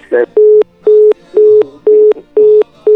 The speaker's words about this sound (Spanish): Ándale, se le cortó la llamada, parece.